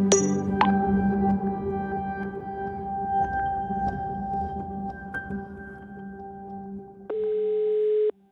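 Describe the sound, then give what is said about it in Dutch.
A steady electronic telephone tone sounds while a call is being placed. A fainter humming tone comes first, then a louder, even tone holds for about the last second. “We bellen met psycholoog Thijs Launsbach”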